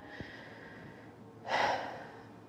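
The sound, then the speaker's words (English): A group of people take a deep breath and exhale together during a prayer. After a quiet stretch, one soft, swelling breathy exhale rises and fades. “Breathe in deeply and exhale.”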